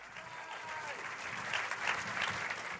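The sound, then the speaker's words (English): A stand-up comedy audience keeps up sustained applause, a thick wash of clapping that swells a little in the second half and continues without a break. “Oh, bless you for keeping that applause going till I went all the way to the microphone.”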